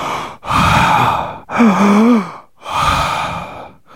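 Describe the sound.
A person demonstrates exaggerated breathing in three loud, heavy breaths with harsh rushing air. The middle breath carries a voiced, groaning tone.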